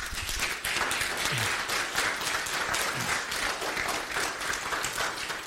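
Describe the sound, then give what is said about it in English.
An audience claps warmly to welcome a pastor to speak, the dense applause holding steady for about five seconds without voices. “if you guys would please give Pastor Dave McVicker a very warm welcome.”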